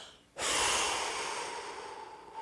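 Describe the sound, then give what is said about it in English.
One deep breath is blown out in a long, breathy exhale during a guided relaxation exercise. It starts abruptly, stays loud and airy for about two seconds, and eases off slightly, with no talking. “Now I want you to take a deep breath and blow that out. Just get all those feelings out of there.”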